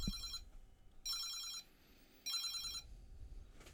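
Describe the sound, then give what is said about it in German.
A telephone rings with a bright electronic trill in three evenly spaced short bursts, the first already under way at the start. The rings are fairly faint over a low background rumble. “Boah, Telefon. Ich muss mal kurz rangehen.”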